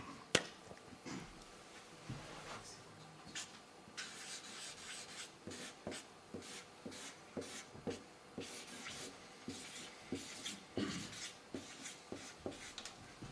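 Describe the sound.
Pens scratching on paper as people write notes, a faint, irregular run of short strokes and rubs spread over about thirteen seconds, with no talk.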